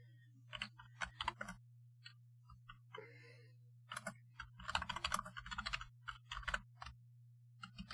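Computer keyboard typing as a name is entered into a search, with quick clusters of crisp key clicks separated by short pauses over a steady low hum.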